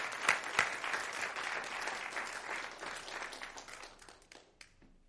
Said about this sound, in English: Let's give him a warm welcome tonight as he comes to take the pulpit.